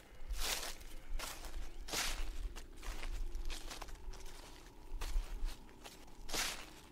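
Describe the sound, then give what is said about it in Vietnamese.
Footsteps rustling and crunching through dry leaves deep in a garden: many irregular, soft, crackly steps with faint crinkling between them. The sound is fairly quiet and alone, with no voices. “Bất chợt ở sâu trong vườn hơn nữa, vang lên có tiếng chân người đi bộ, loạt xoạt dẫm lên lá khô.”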